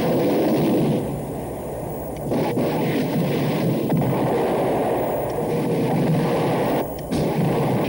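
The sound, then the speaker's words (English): A dense artillery barrage unloaded on a single target forms a continuous, heavy rumbling roar. Blasts blur together with no distinct booms, and the roar dips briefly only a couple of times. “Just everything he's got, throwing it at him. So many explosions. It's such overkill.”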